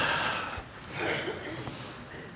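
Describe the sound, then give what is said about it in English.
A seated audience takes a deep breath together, making broad, breathy swells of many people inhaling and exhaling, with a soft rustly texture throughout. “Take a deep breath with me, would you?”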